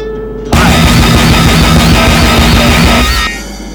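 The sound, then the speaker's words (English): Remote control rockets firing: a sudden, very loud roaring, crackling burst that starts abruptly, holds for about three seconds, then cuts off, leaving a lower rumble. “Standing by to fire remote control rockets. 5 seconds. 4, 3, 2, 1.”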